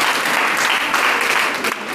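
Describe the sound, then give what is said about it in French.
Audience applause from a live recorded event, a steady, dense wash of clapping hands that stays loud and even for the full two seconds, with no talk over it. “Donc, vous pouvez vous manifester. Vous pouvez applaudir sur ça.”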